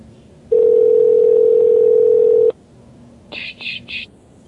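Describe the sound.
A telephone dial tone holds steady for about two seconds, then cuts off. Three short dialing beeps follow as a call is placed.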